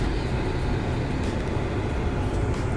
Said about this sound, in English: My fault, I'm at a car wash and shit. It's like 90 degrees out here already.